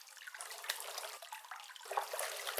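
Hot bath water sloshing and moving, a soft continuous wash of splashing and trickling that stays fairly faint throughout, with a slightly brighter swirl near the end.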